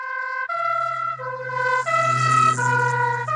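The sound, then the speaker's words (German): Emergency vehicle siren driving past, a loud two-tone wail alternating steadily between high and lower pitches, with a low engine rumble underneath from about half a second in. “Was hinter dieser Verschiebung der Wellenlängen steckt, lässt sich am besten anhand eines umgangssprachlich genannten Tatütatas demonstrieren, das an euch vorbeifährt.”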